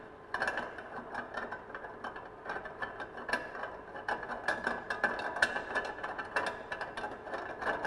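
Rapid ratcheting clicks from the locking mechanism of a machine being loosened, as a tube is turned out of the machine's tank so it can be cleaned of leftover mixture. The clicking is dense, steady and continuous throughout, with no voices.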